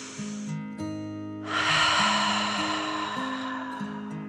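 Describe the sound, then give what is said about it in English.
A deep breath is drawn in and let out slowly during a calming dragon-breath exercise. The long, airy rush swells after a short pause and then fades gradually over soft, sustained musical tones. “"Okay, me too," Billy said through a gigantic smile. And they both took a deep breath in and out.”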